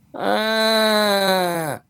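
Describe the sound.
A voice imitates a person whining: one drawn-out, nasal moaning tone lasting about a second and a half. It holds a steady pitch and dips slightly just before cutting off.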